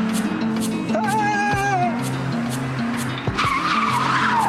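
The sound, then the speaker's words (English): Tyres squeal as a car skids past at speed, a sustained high screech with wavering pitch over a loud, continuous engine roar. “A man sitting in his garden watches the car skid past.”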